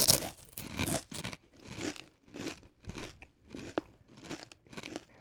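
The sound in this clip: Doritos tortilla chips crunch during a tasting of international flavors, with many sharp, crackly bites and chews in a steady rhythm, fairly faint and with no talk over them.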